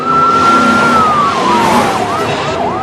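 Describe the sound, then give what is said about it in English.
Police cars speed past in a chase, their sirens first wailing in a long tone that slowly falls and then switching to rapid rising-and-falling yelps. A loud, constant roar of engines and road noise runs underneath. “Ricky pulls away, followed closely by the cops as they speed past Reese”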